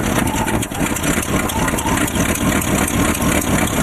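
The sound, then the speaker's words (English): A junky car engine idles with a steady, rough, unbroken rumble that stays loud and even throughout. “customers who arrive in junky cars that sound like this.”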